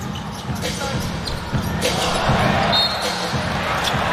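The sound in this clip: A basketball is dribbled on an indoor court during a game, its bounces landing under a constant wash of arena crowd noise.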